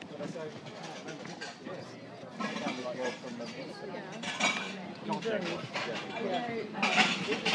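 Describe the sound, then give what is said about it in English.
Dishes and cutlery clink as a kitchen area is tidied at a gathering, with scattered light clatters under a steady murmur of voices. “It's obviously the kitchen area, tidying up as everybody gets ready to go to the talk.”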